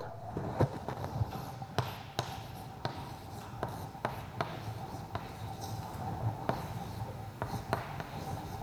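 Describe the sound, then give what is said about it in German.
Handwriting on a board as the name Anaxagoras is written out during a philosophy lecture: many scratchy strokes and sharp taps in an irregular rhythm, fairly faint, with no speech. “Ich schreibe mal den Namen hin, damit Sie keine so Probleme haben.”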